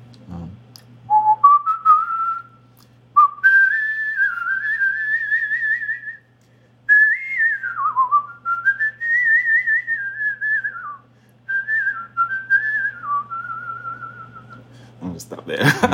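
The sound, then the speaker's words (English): A person whistles a tune of the kind played at a wedding, a clear melodic line of gliding, sustained notes broken into a few phrases by short pauses, heard alone. “So, could you give us such a little example of what you might whistle at a wedding?”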